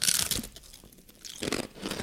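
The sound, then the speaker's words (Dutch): Crunching of ridged barbecue ham potato chips, a few loud, crisp bites and chews coming in separate bursts with short quiet gaps between them and no talk. “Het is een ribbelchips. Het zijn ribbelchips. Daar houden wij heel erg van.”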